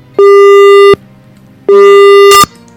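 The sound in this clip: A telephone busy tone after a dropped call gives two loud, steady, mid-pitched beeps, each about three quarters of a second long and separated by a pause, ending in a short click.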